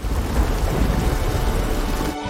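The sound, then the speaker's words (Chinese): A thunderstorm brings a loud, continuous roar of heavy rain over a deep rumble of thunder. The sound stays dense and even, then briefly drops out just before the end. “我看这场暴风雨来势汹汹”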